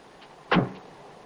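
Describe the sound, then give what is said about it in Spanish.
A small dark blue car's door being shut, a single short, muffled thud against a faint steady background hush. “Es un utilitario azul oscuro. La chica se apea y cierra el vehículo.”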